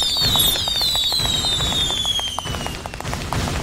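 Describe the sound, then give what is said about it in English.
A bomb going off in a video game: several high whistling tones slide steadily downward over a dense, continuous crackle of sharp pops and low rumble, with no voices. “These are bombs. That's the sound of a bomb. That. And when they hit you, it hurts.”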